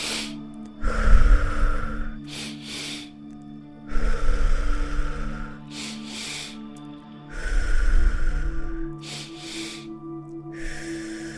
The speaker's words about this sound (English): Two-part inhale.